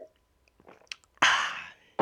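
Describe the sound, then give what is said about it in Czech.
Someone taking a sip of a drink: faint slurping mouth noises, then a louder breathy burst that fades over about half a second, and another short burst at the end. “Tady se napiju, pauza, ASMR. Možná to bude ASMR”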